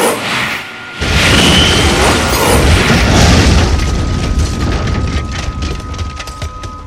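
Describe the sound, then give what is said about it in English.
Missiles exploding on impact: a heavy boom bursts in and swells into a roaring blast that rumbles and crackles like spreading fire for several seconds, slowly thinning out. “As the missiles hit the old L4, they exploded and caused a fire to erupt.”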